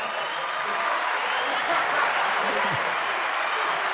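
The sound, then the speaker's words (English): Applause from a studio audience, a dense, steady wash of clapping that holds at an even level for the whole stretch. “I think that deserves some kind of ovation.”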